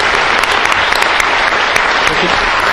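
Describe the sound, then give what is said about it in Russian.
An audience at a book lecture claps for the speaker in dense, even applause that holds steady and loud throughout, with no single claps standing out. “Давайте похлопаем нашему уважаемому Шиповичу.”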